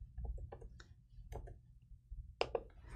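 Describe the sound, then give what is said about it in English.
A computer mouse clicks several times, short, crisp, faint taps in an irregular pattern with a couple of closely spaced pairs, heard alone with no speech. “If I click on logs, I will be able to get all the logs relevant to this server.”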